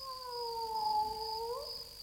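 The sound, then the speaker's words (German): A cat meowing in a German radio drama: one long, drawn-out wail that holds steady at first, then bends upward near the end. It is soft and alone, with no talk. “Sei still, da war was. Ja, da miaut was.”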